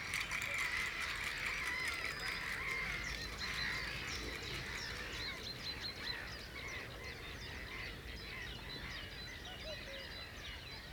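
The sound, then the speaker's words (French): Agitated birds call in fairly faint, busy bursts of high chirps and harsh caw-like notes that overlap continuously and grow somewhat quieter toward the end. “Des oiseaux agités”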